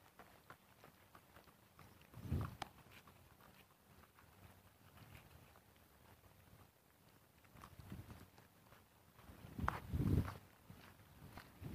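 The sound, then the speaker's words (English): Faint footsteps of a jogger coming up from behind someone walking along the side of a park, a steady patter of soft footfalls with a few louder thuds. “Jogger up behind.”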